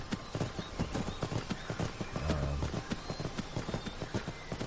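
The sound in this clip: Horse hooves clip-clop on a road in a video game. Many quick, steady hoofbeats repeat in an even riding rhythm over a constant background, with no voices.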